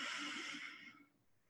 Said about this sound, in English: One more time, deep breath in.